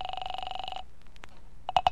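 A telephone rings after a number is dialed: a buzzing, pulsing ring tone for under a second, then faint clicks and a couple of short tonal blips near the end.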